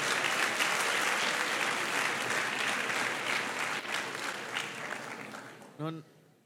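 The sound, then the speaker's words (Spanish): Audience applause at a church service: sustained, dense clapping that gradually thins and fades over several seconds, ending with a brief voice. “Un aplauso al Señor por nuestras mamás. Let's give the Lord a hand for our mothers.”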